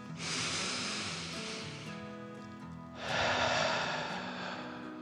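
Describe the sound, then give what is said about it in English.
A deep breath is drawn in and then let out, two long, soft, airy rushes of air of similar length, quiet and unaccompanied. “He took a deep dragon breath in and out.”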